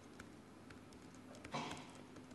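Faint, sparse keystrokes on a computer keyboard while a C# file name is entered in a code editor; a handful of soft, irregular clicks over a low steady hum.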